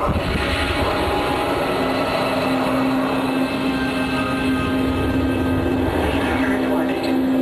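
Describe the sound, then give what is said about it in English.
Second-stage rocket engine firing during a lunar mission, a steady, loud roar with a constant underlying hum that holds unchanged throughout. “Pilot, engage second stage rocket. Engage now.”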